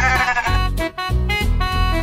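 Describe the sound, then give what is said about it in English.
Sheep bleat loudly in a few wavering, strongly tonal calls, each separated by a brief gap, with no talk. “Sheep.”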